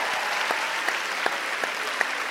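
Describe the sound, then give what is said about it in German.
Applause from a studio audience on a German TV show, a steady, even patter of many hands with a few sharper claps standing out. “Toll, ja, ein Applaus.”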